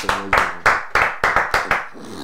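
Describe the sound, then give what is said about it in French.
Sharp hand claps from a church audience in acclaim: seven crisp strikes in a steady, evenly spaced rhythm, each ringing briefly before the next. “Comme je vous, je vous avais dit d'appeler et de prier, et vous avez prié, cela s'est accompli. Ok, acclamons pour le”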